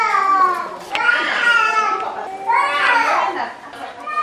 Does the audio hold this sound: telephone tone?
no